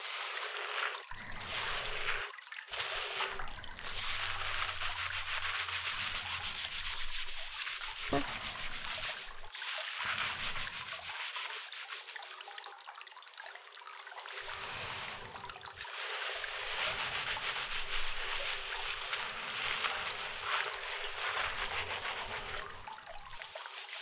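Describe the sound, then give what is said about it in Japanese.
Hair being washed with scalp rubbing: steady, close, hissing friction runs on continuously, broken by a few short pauses. “人に頭を洗ってもらうのって想像よりも気持ちいい行為でございますよ”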